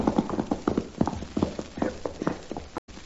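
Horse hooves clip-clop in a steady, rhythmic run of many sharp strikes as a rider arrives and reins in, the hoofbeats loud and even throughout before a brief break at the very end.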